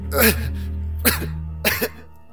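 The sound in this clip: A man coughs with a strong, hoarse, croaking cough, a few harsh bursts spaced out over a couple of seconds, the last breaking into a double hack.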